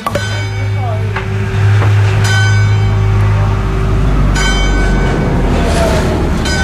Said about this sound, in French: C'est la nationale, et en fait on est au bord de la voie de chemin de fer et de la nationale 113.